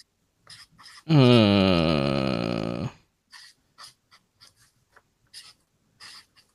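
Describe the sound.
A pen scratches on paper in many short, quick strokes with brief pauses between them, following a loud, drawn-out tonal sound near the start.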